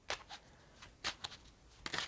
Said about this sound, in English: I am going to go with the bicycle playing cards next.